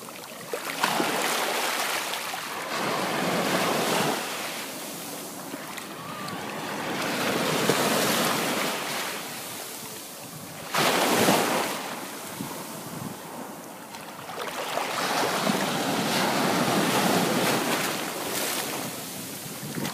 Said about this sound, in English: That was the sound of waves crashing at the beach in Kauai.